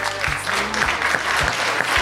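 Audience applause, a continuous dense patter of many hands clapping at an even, strong level for the whole couple of seconds.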